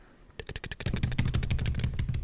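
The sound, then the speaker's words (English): A rapid drum roll of dense, fast strokes starts after a brief quiet moment, then holds as a steady, loud roll for about two seconds. “Drum roll.”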